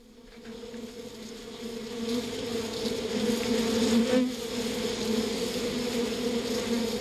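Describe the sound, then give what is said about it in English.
Bees buzzing in a dense, continuous drone that swells slightly after the first couple of seconds and then holds steady to the end, with no voices. “That's the sound of some bees, of course.”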